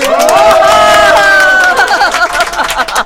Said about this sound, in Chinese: 哇，你看这么多人给你鼓掌啊！